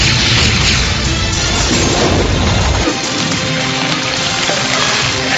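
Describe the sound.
A detonation in the sci-fi horror film Leprechaun 4: In Space, heard as a loud, sustained roaring blast of dense noise with heavy low rumble that thins partway through into a continuing hissing roar.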